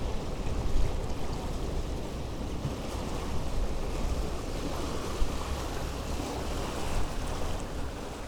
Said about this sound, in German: Wellen schwappen ans weiße Pegelhaus am Ende der Mole und der Wind peitscht die Gischt auf den Teer.